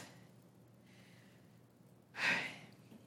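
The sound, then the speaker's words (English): Deep breaths drawn by an audience during a prayer service: a faint, airy breath first, then a louder, fuller breath that rises quickly and trails away, all quiet overall. “And now take a deep breath. Everybody, just take a couple of really deep”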